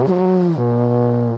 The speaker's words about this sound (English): And you helped us identify that sound as a tuba.